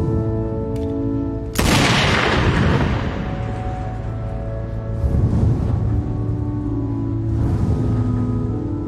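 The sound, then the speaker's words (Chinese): A single gunshot in a blacksmith's shop, a headshot in a Peaky Blinders scene. The loud sharp crack hits abruptly and decays into a long rumbling tail over a steady tonal music bed. “随后来到一家铁匠铺，对着一个可怜的爱尔兰人一枪爆头。”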